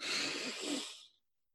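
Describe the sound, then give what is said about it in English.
A single deep inhale during a guided breathing exercise at a community meditation, heard as a soft, breathy rush of air lasting about a second, alone and without talk. “just take a nice deep breath in.”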